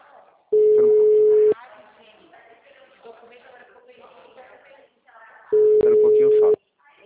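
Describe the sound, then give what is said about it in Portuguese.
A telephone call being placed: two long, steady ringing tones of about a second each, separated by a stretch of muffled voices and sound. “É que eu comecei a ligação, peraí.”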